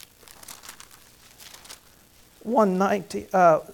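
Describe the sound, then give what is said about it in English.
Bible pages flip with faint, crinkly paper rustling over the first couple of seconds, then a voice speaks clearly after the rustling. “Now, flip back, hold your place there, and go to Psalm 116.”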